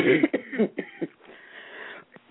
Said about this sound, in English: I told you I have a cold, and I start laughing, and I start coughing.